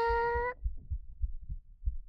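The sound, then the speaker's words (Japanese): Heartbeat heard with an ear pressed against a person's chest: soft, low, muffled thumps in a steady rhythm, several beats after a brief sustained tone at the start. “どう？聞こえた？私もドキドキしてる。”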